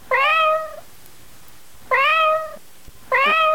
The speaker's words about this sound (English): That your cat? My cat's choking on something.